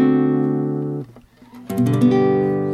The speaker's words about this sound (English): Now, sometimes you might see the D change to a D7, and that would make it sound like this.